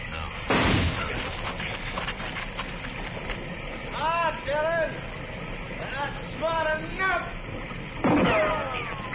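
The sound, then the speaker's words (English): A gunshot is fired at a tree during an armed standoff with a fugitive: a sharp, loud crack near the start and another near the end, with men's voices speaking between them. “I'm going to flip a shot at the tree”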